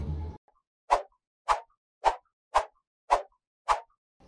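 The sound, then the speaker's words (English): A skipping rope slapping the ground six times in a steady rhythm about half a second apart, each hit a sharp swishing smack with silence between, after a brief burst of other noise at the start. “Skipping rope.”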